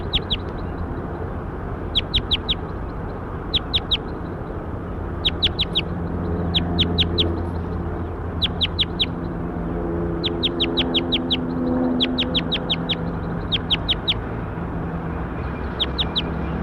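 Bird calls ring out as many short clusters of high, sharp chirps, repeating at fairly regular intervals over a steady low rumble that runs throughout.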